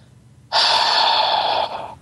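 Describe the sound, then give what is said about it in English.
A voice imitates a heavy exhale: one long, breathy outward rush of air lasting about a second and a half, strong at first and easing slightly before it stops. “and he's like, he exhaled”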